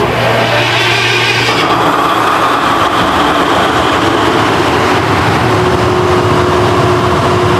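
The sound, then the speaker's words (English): A generator starting up produces a loud, steady mechanical drone. The droning noise shifts in tone early on, and a faint steady hum joins near the end. “What was that noise? The generator finally kicked in. Power should be coming on in any second.”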